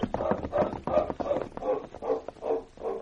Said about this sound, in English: Come on, let's mount and ride away from here.